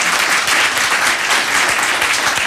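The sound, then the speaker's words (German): Studio audience applause greeting guests on a morning talk show: loud, even, continuous clapping from many hands, alone with no voices. “Applaus”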